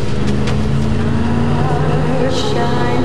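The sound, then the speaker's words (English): Land Rover engine roaring as the vehicle smashes through a gate and speeds down a pier, a loud, steady revving drone that holds throughout. “Now his Land Rover smashes through the gate and speeds down the pier.”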